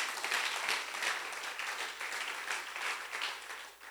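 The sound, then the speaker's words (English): An audience claps their hands in a sustained, fairly soft spread of applause that swells and eases slightly before thinning near the end. “Why don't you clap your hands one more time for”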